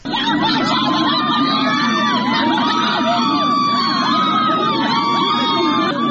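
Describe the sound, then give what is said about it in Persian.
Villagers protesting outside a county governor's office in Lordegan, Chaharmahal and Bakhtiari province, shout together in a dense, unbroken mass of raised voices and cries that fills the whole clip without pause. “این صدای معترضان است که در روستای چنار محمودی، یکی از روستاهای شهرستان لردگان در استان چهارمحال و بختیاری در مقابل فرمانداری لردگان تجمع کردند.”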